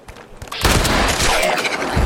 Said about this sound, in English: Oh, I shot him and then he hit his head on a rock.